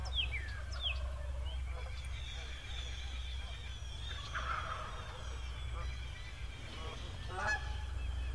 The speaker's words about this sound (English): it's a line of about 20 geese. They're in single file.